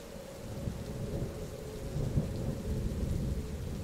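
A thunderstorm with heavy rain: a steady, dense hiss of rainfall over a continuous low rumble of thunder, fairly soft overall and with no voices.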